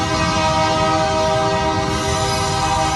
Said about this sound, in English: right next to a train line. They hear noises like this